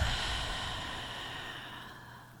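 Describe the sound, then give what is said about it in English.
One long, steady breath in a guided meditation, a soft continuous airy hiss that slowly fades over a couple of seconds, with no talking. “We're going to do one last big breath and let it go.”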